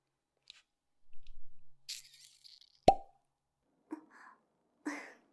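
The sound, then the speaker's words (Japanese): A single sharp pop as a bottle cap is pulled open, preceded and followed by faint rustling and handling noises in otherwise near-silence. “そして最後が、よいしょ。キャップですね。これ、ポンっていうタイプだとびっくりするんですよね。”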